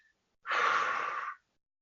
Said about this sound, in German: Du konzentrierst dich nur auf den Ausatmen, Atem. Ja, also so.